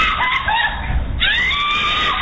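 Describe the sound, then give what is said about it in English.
A mother's piercing scream, caught on surveillance video at a gas station after a road-rage shooting. The shrill, strained cry leaps higher partway through and is muffled and harsh against a loud, continuous background. “A mother's piercing scream caught on surveillance video obtained by ABC station KTRK.”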